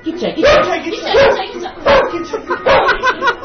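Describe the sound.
Dog barking in a series of several sharp, mid-pitched barks separated by short gaps, loud and fairly regular.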